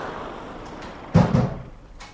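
A door pulled shut in a home in a French radio drama: a dull thud, then a second softer bump right after, and quiet afterward.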